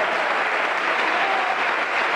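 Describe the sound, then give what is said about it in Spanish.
Applause from an audience at a religious service: dense, steady clapping with no breaks, even in loudness, and no voices. “Vamos, aplauda al Rey de Gloria.”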